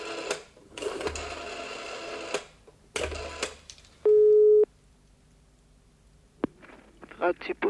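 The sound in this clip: A single loud telephone beep of about half a second stands out after a phone call. Scattered rustling, thumps and muffled noise come before it and after it, and it is heard in a German-language setting.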